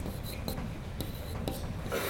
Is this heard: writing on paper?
yes